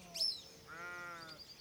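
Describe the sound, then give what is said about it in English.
A single drawn-out bleat from farm livestock on a summertime Orkney farm rings out clearly, a wavering, buzzy call holding steady for most of a second, with no talk around it. “Her rhythmic vibrations are joined by the bleating of the cows.”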